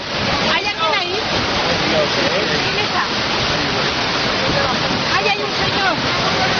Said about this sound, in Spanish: Imagínate, este es el sonido de la riada, de la cantidad de agua, el caudal que llevaba y los gritos de la gente